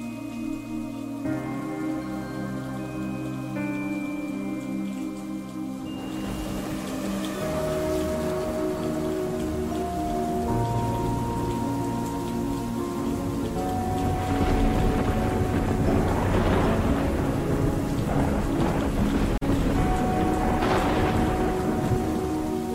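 Rain and wind on a stormy night, a constant dense hiss that swells with low rumbles toward the end, beneath sustained tonal music.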